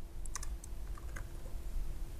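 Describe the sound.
Faint keystrokes on a computer keyboard as someone types code at a console, scattered clicks in small bursts over a steady low hum.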